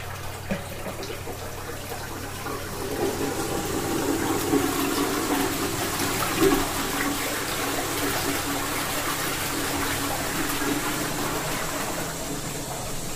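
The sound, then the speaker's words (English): A home toilet flushing: a steady rushing gush of water with gurgling, swelling slightly in the middle and running for about thirteen seconds with no talk. “This is the sound of our toilet flushing.”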